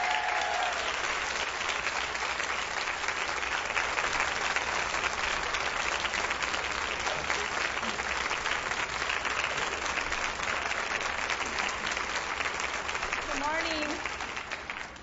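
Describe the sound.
Sustained applause from a church audience welcomes a speaker to the stage, a dense, even wash of clapping that holds steady for many seconds before easing slightly at the end.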